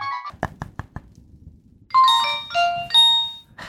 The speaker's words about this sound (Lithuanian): Labai atsiprašau, bet skambina į darbą telefoną.